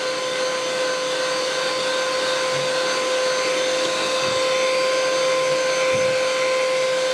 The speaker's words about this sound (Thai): เราปั่นจนเย็นเลยนะคะปั่นจนเย็น ปั่นจนเย็นเลย